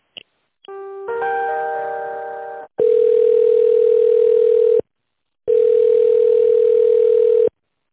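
Telephone line tones while a call is transferred: a brief beep, a held chord of chime tones, then two long, steady, loud tones separated by silence.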